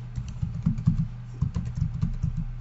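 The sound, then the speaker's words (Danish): Typing on a computer keyboard while entering an email address and password at a login page: many quick, uneven keystrokes in a steady stream with brief pauses. “Skriv din mailadresse og dit password.”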